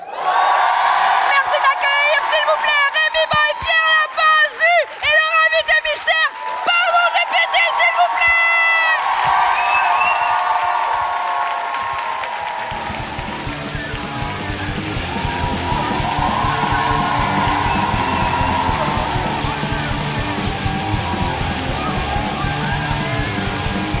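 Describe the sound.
An audience at a live show at l'Apollo cheers and applauds to welcome a guest. Loud yells and whoops come first, then they settle into a steadier roar of clapping and crowd noise.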